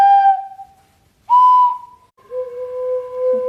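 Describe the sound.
Three wooden whistle pipes are blown in turn, each giving a pure, steady tone. The second pipe sounds slightly higher than the first, and the last and longest pipe sounds clearly lowest and is held longest.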